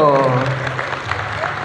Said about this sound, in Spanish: Que se sienta la alegría, vamos, vamos. Ahí está, eso, los aplausos de todo el público.